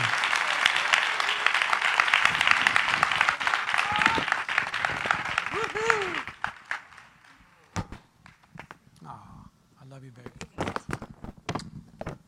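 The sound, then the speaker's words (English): A church audience applauds to welcome a pastor, with loud, continuous clapping for about six seconds. The applause then drops away and a man starts talking over scattered small noises. “Help me welcome this morning Pastor Corey Youngblood Perea.”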